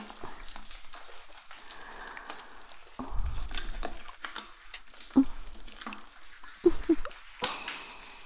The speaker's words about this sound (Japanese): ふわふわもこもこの泡で、お耳をくちゅくちゅっと、